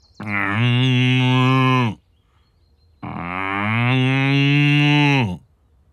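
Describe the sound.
An ox moos twice, each call a long, deep, steady bellow lasting close to two seconds, with a short pause between the two calls and no talk over them.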